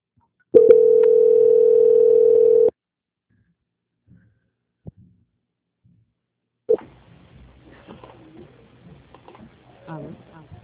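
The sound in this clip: A steady telephone tone sounds during a call transfer, lasting about two seconds, then cuts to near silence broken by a few faint clicks before quiet voices begin.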